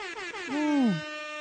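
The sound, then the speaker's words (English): A hip-hop air horn sound effect blares as a sustained, buzzy, harmonic-rich blast. It swells louder in the middle, wavers and dips in pitch, then holds a steady tone to the end. “Hip-hop air horns.”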